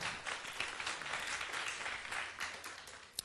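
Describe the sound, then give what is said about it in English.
An audience applauds to welcome a guest onto the stage, with steady, even clapping throughout and one sharper clap near the end. “俾啲掌聲佢先”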